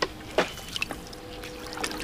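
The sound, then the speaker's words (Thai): Hands are washed and rubbed under running water, faint trickling punctuated by a few soft splashes and wet rubbing noises. “ล้างมือนะถูถูเยอะๆถูเยอะๆล้างอีก”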